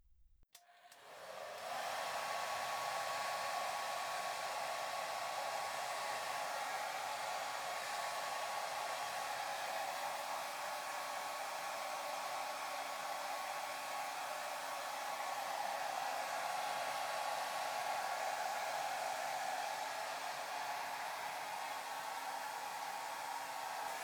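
Hair is dried with a hair dryer, which switches on after a moment and blows a steady, loud whooshing rush of air with a faint hum, running without a break for over twenty seconds.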